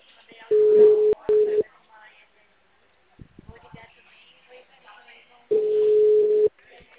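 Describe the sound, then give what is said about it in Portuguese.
Telephone ringback tone on an outgoing call: a steady buzzing burst about a second long, briefly broken in the middle, followed by several seconds of near-silence with faint clicks, then a second matching burst. “Tá dando chamada. Caixa postal. Vou ligar umas 5 vezes.”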